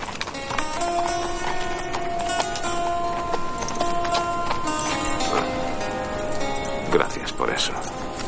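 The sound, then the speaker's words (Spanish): Horses' hooves clip-clop as riders cross mountains on horseback in a western film, leading two other animals. The steady walking rhythm runs under sustained orchestral music. “Más tarde vuelven a atravesar las montañas cabalgando sobre sus caballos y llevando a los animales de las dos mujeres.”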